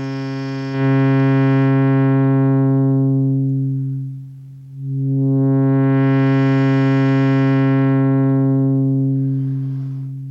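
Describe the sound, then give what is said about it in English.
A sustained, buzzy synthesizer tone gradually loses its bright upper overtones as a low-pass filter closes until only a dull, mellow hum remains. The filter then reopens and the full bright tone returns before slowly darkening again. “So I'll close the filter, and we'll cut out first the higher overtones and then all of them.”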